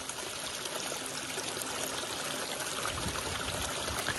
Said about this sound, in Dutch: Twee keer per dag stroomt het gebied vol om bij eb weer leeg te stromen. En dat gaat met kracht, zoals u hoort. Overal lopen gultjes die het water luidruchtig afvoeren.